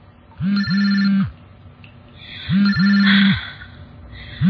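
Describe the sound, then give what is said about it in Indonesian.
A mobile phone vibrates and rings loudly: two cycles of a short buzz followed by a longer buzz, each carrying a bright ringtone above it, with a third cycle starting at the very end. “Karena suara getar dan dering di handphoneku. Duh, bikin kaget aja nih handphone.”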